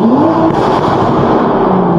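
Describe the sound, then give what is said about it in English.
Car engine being revved hard in a rev bomb, a loud, sustained engine drone that holds a steady pitch throughout. “I already know this guy's gonna rev bomb it.”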